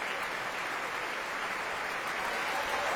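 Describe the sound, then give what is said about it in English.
Applause at the Royal Opera House during a Carmen performance as the orchestra and company are acknowledged: a dense, continuous sheet of clapping with no pauses. “Don José himself, Francesco Melli, applauds the orchestra and the rest of the company.”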